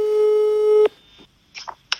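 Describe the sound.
A telephone line tone sounds while a call is placed to a friend. One loud, steady pitched tone lasts under a second and then cuts off abruptly, followed by a few faint clicks.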